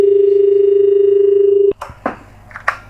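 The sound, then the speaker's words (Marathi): An incoming caller's telephone line gives a steady, unbroken tone, which cuts off with a click and is followed by a few faint, brief sounds. “तर आपण कार्यक्रमातला पहिला phone घेऊया.”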